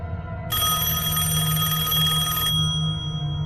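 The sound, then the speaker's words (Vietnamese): A telephone rings at night beside a bed: one sustained, bright electronic ring of about two seconds, standing out clearly over a low steady hum, then stopping. “chỉ còn từng hồi chuông điện thoại đổ dồn”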